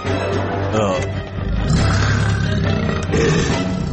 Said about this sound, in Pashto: ناڅاپه له ځنګله څخه یو پړانګ راغی او په کیلې حمله کوله.